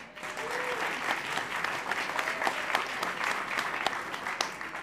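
Audience applause welcomes a reporter introduced at a discussion event, a full, steady clapping that holds at an even level throughout.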